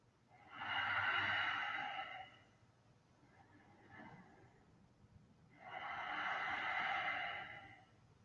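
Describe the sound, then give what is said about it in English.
Slow, deep breathing during yoga practice, heard as long airy swells of breath: two broad, drawn-out breaths with a softer, shorter one between, quiet and unhurried. “And take a few more breaths.”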